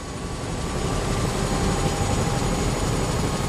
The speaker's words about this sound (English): That sound right now, that's a helicopter.